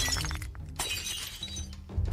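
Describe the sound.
Crashing and shattering of a ceramic bowl smashed against a man's head as a drinking party turns into a brawl, a dense noisy clatter with a few sharper crashing bursts standing out.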